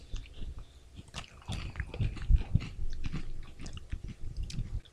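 Crunchy Thai snack crackers are bitten and chewed in irregular, moderately loud crunches and softer grinding chews, with no talking over them.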